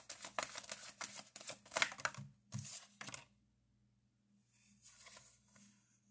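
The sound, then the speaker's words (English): Tarot cards dropping during a reading, a rapid run of many dry, papery slaps and clicks lasting about three seconds, then near silence with only a faint rustle. “Sorry, I'm just dropping cards.”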